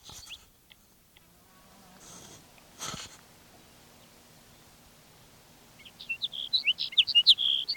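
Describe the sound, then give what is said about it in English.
Sage sparrow song: a quick run of high, thin, sweet chirps fills the last two seconds. Before it comes a quiet stretch with a couple of soft knocks and rustles. “after sage-sparrow number one.”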